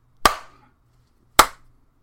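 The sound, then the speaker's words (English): Two sharp hand claps mark the start of a recording session. They are about a second apart, each a crisp, loud slap with a quick decay and silence around it. “Okay, I'm going to do the countdown clap, and I'll talk us in.”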